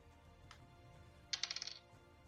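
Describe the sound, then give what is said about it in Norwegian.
A small eight-sided die clatters across a hard surface in a quick run of tinkling clicks, faint, after one soft earlier tap. “Roll en D8 for meg. En D8. D8. Liten diamant.”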